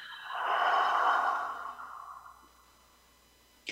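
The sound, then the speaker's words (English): A single deep breath out, airy and breathy, swelling to a loud rush in the first second or so before tapering slowly into quiet, with a short faint click near the end. “Take another deep breath in. And blowing out.”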